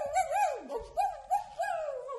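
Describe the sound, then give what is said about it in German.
A person imitates a howling dog with a long, sustained wail whose pitch wavers up and down, dips low midway, then rises again into repeated undulating howls. “Und ich könnte jaulen”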